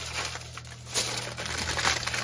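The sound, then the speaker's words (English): Aluminium foil is scrunched and squeezed around a roasting dish of Greek leg of lamb and potatoes, giving a continuous dry crinkling with a few louder crackly bursts, moderately quiet throughout. “scrunch your paper, your uh, aluminum foil. Scrunch it all around”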